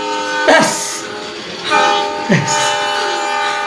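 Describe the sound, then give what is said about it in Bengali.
An approaching passenger train blows its whistle in loud, rich, harmonic blasts, three in a row, the last held long, with rumbling rail noise beneath. “তারপর হঠাৎই শুনল দূরাগত কোনো ট্রেনের whistle, ট্রেনটা আসছে, লাল গোলা first passenger, ট্রেনটা আসছে, আরো আরো এগিয়ে আসছে”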